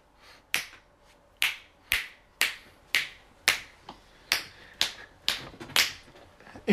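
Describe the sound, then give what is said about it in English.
Loud finger snaps, many sharp, crisp cracks at a fairly even pace with short pauses between them, heard alone without talk. “I have a freaky talent. I can snap, but really loud.”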